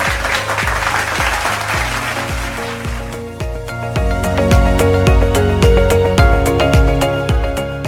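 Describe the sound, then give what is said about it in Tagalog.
Applause sounds out in a brisk, even rhythm of many claps, loud and continuous, with sustained tones running beneath the second half. “Palakpakan ang inyong sarili.”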